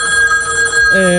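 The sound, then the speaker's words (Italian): A telephone ringing with a loud, steady electronic tone that holds bright sustained pitches and rings continuously, with no pause. “Squille al telefono, raga.”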